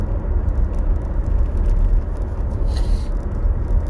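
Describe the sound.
A car drives along with a steady low rumble of road and engine noise. The drone stays continuous and even throughout, with no voices.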